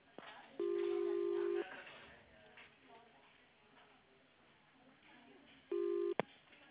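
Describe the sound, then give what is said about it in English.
Telephone keypad tones as an extension is dialed after an automated greeting: a steady beep of about a second, then a shorter second beep and a sharp click, over faint line hiss. “If you know your party's extension, please dial it now or press 0 for the operator assistance.”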